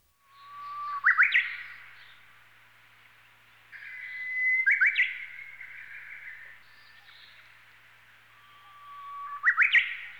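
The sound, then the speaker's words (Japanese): A Japanese bush warbler sings three phrases, each a long, steady whistled note that breaks into a quick, rising flourish, clear against a quiet background. “おいおい、今度はウグイスかよ。”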